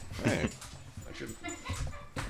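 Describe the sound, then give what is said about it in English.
A large female puppy under a year old whimpering: short, high whines and yips broken by snuffling sounds, fairly faint and uneven. “She is a big puppy. You're a beautiful puppy girl.”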